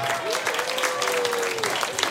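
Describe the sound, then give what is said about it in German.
An audience claps after a live Schlager music performance. The applause is dense and continuous, holding at a steady level throughout. “Einen Applaus nochmal”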